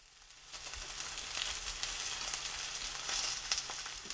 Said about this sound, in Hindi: अगर सार्डिन पकने के बाद सुनहरी रंगत की हो गई हो तो उसे पलट दीजिए।